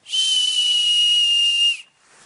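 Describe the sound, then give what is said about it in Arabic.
A person whistles by forcing air through a narrow opening: one clean, high, steady tone held for about a second and a half, loud and unwavering, then cut off, leaving faint hiss. “مش انا لما حد بيصفر بيعمل كده”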